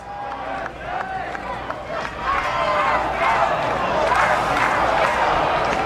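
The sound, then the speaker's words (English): A baseball crowd shouts for a balk as the pitcher steps off the mound toward the runner on third. The roar of many voices swells loud midway, under a commentator's talk. “Now Thigpen will step off the mound and walk towards the runner at third base, Stripling. The crowd is calling for a balk.”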